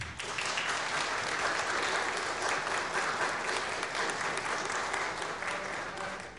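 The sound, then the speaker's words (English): An audience applauds at a live worship service, a dense and steady wash of clapping that holds at an even level and eases off slightly at the very end. “Thank you guys for your service. You may applaud them if you like.”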